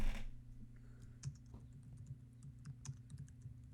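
Someone types a comment on a computer keyboard, a faint run of irregular light key clicks over a low steady hum.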